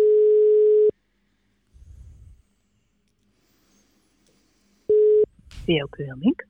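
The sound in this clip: Ringback tone of a telephone call being placed in the Netherlands: two steady mid-pitched tone pulses, the first about a second long and the second cut short after a long silence, followed by a voice answering.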